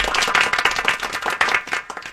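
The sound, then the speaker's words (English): Hand clapping in a quick, steady run of sharp claps, loud and alone with no talk over it. “I don't know if I clap for her or you.”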